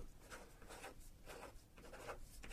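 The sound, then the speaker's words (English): Pen scratching on paper as a PIN number is written down: a quick run of short, soft strokes in an uneven rhythm, faint and alone. “I'll write it down here, okay?”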